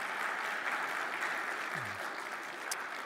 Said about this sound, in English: Put your hands together and welcome Jennifer.